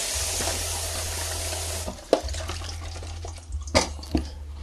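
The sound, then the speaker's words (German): Tap water runs as zucchini is washed under it, a steady rushing hiss that stops partway through, followed by a few scattered splashes and drips at the sink. “Zucchini wasche ich eben.”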